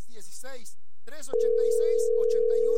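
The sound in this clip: A steady telephone dial tone sounds on a call that fails to connect. One loud, unbroken tone holds to the end after a short pause, with voice-like sounds before it and continuing faintly beneath it.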